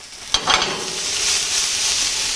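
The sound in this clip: Chopped onion sizzles in a hot pan, with a brief stirring scrape near the start and then a steady hiss that carries on alone to the end.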